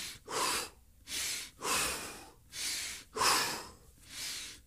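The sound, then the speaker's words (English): Rapid breathing exercise: six forceful, breathy huffs in an even, quick rhythm, each a short rush of air with a clear gap between them and no talk. “So if you breathe rapidly, I always feel more alive.”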